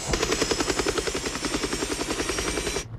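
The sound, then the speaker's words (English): Helicopter rotor blades spin with a steady, rapid, rhythmic chopping thump over a loud engine whine, holding an even pulse throughout before cutting off abruptly at the end. “Helicopter blades start to spin.”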